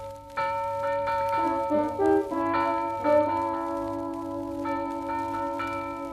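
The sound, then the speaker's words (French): An alarm bell, a tocsin, rings at full swing in the inner courtyards of a fortress during a surprise attack, giving several faint clangs with long, humming overtones that linger between strikes. “au son du tocsin sonné à toute volée, le vigile s'époumonne”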